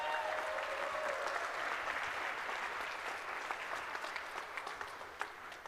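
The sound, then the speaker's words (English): Dense audience applause from a live show crowd, loud and steady throughout, easing slightly toward the end as a few sharper individual claps stand out. “Can we get a round of applause,”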